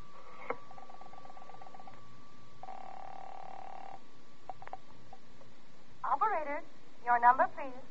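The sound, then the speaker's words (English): Telephone tones from a phone booth at a filling station as a call is dialed: a short pulsed tone, then a steady tone held for over a second, both faint. “I'm going to make a telephone call. That phone booth in the filling station.”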